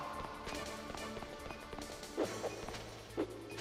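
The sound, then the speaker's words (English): Punches land in the video game Metal Gear Solid Integral: three soft thumping hits, two close together and a third after a pause, over a steady bed of game sound. “I'm keep punching him. Just don't do it in threes. Just do punch, punch.”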